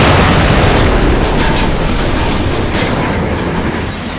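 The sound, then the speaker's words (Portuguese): Loud, sustained crashing rumble as an iron ball smashes through a wall like a meteor; a dense, roaring wash of noise fills the whole clip without letting up. “vem aquela bola de ferro quebrando a parede igual um meteoro e bate e quebra a parede onde tá a televisão”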